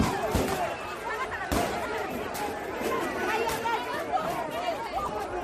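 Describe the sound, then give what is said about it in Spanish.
Crowd noise from a protest outside the Congress in Lima, Peru, as national police disperse demonstrators: a dense, continuous babble of many voices, broken by two sharp bangs early on. “Este es el sonido de lo que está pasando en Lima, en la capital de Perú. Ahora mismo la Policía Nacional ha tenido que dispersar a los manifestantes”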